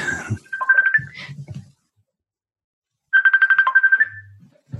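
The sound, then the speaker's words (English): Mobile phone ringtone: a bright electronic melody of quick pulsing notes plays in two bursts separated by a short silence, loud and clear with no talk over it. “Sorry about that. I have a new phone and I'm still learning how to turn things off.”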